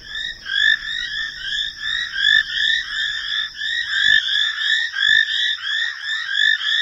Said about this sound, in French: c'est des petites grenouilles, hein, des grenouilles peintes. Et puis on entend les hyènes derrière.